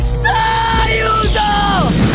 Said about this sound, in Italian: Soffro molto, moltissimo! Sto urlando! Sto anche chiedendo aiuto!